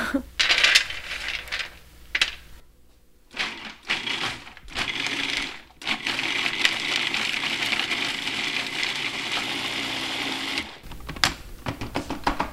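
A blender grinds about a quarter cup of almonds for a sauce with roasted red peppers, garlic and herbs: loud, harsh, rattling bursts broken by short pauses, then a long sustained run of grinding before a few final short pulses.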